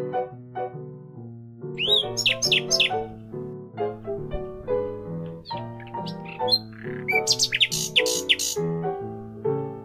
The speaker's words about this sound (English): I hear the birds singing, and you know what that means.